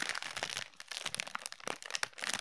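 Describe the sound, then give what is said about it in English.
A plastic Twizzler candy bag crinkles and crackles as it is opened, a dense run of many small crisp rustles and snaps, quiet and alone with no talk. “She's taking the Twizzler out of the Twizzler bag.”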